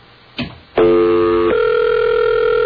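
An office telephone line is picked up: a brief click, then a loud, steady dial tone that turns into a purer, even hum about a second later and holds to the end.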